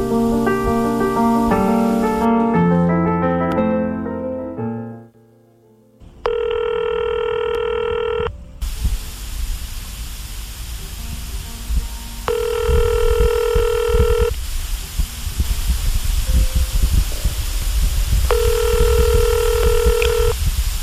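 A telephone call being placed: a series of stepped dialing tones, then three long ring tones spaced several seconds apart over a steady hiss.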